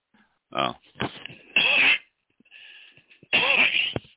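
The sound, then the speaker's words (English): Harsh coughing from a scratchy, pollen-irritated throat: a few loud, rough bursts with voiced, rasping edges, separated by short pauses, with no talk between them. “So I apologize for the cough right off.”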